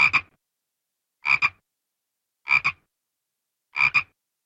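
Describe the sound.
A frog croaks by inflating its throat vocal sacs, producing four evenly spaced calls, each a quick doubled pulse, loud and rasping, with clear silence between them.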